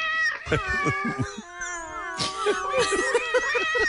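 A cat meows and yowls repeatedly while someone tries to get it out. The cries are loud, drawn out and wavering, rising and falling in pitch, sometimes strained like a caterwaul.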